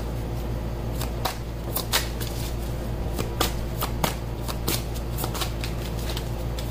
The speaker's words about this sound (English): I'm going to split this in three. Some cards going.